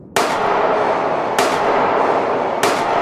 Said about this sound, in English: Three quick rounds followed by silence.